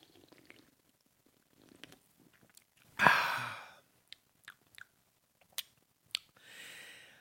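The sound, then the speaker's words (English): Someone takes a taste of Blue Point Brewing IPA beer: one loud slurping sip, then several small lip smacks and clicks, ending with a soft breathy exhale. “So what I have here is I have the IPA by Blue Point Brewing. It says an IPA like no others. Let's take a taste.”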